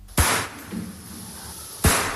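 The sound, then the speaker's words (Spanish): Two sharp gunshots ring out in a slaughterhouse in Segovia where fawns were shot. The loud, abrupt bangs are spaced about a second and a half apart, with a low, dim background between them. “Así suena el vídeo que ha publicado la Fundación Igualdad Animal, que habla de 200 cervatillos disparados en un matadero de Segovia.”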